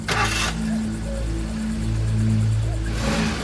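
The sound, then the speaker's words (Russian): A car pulls away on a dusty road, its engine and tire rumble forming a steady, moderately loud drone with bursts of gritty hiss at the start and end. “Машина выезжает, поднимая колесами пыль.”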